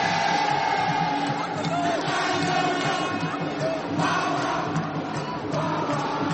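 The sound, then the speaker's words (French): A stadium crowd chants during a match, a loud sustained mass of voices that carries on without a break. “Espérons que les chants du public l'aident dans ce moment délicat.”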